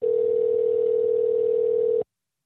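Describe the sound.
Ringback tone of an outgoing telephone call that goes unanswered: one steady, loud, mid-pitched electronic hum lasting about two seconds, then cutting off abruptly into silence.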